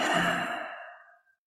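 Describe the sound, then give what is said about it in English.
A single deep, breathy exhale during a guided breathing meditation. It starts fairly full and softens steadily, fading out after just over a second with no talk. “let's take 3 deep breaths together, inhaling and exhaling”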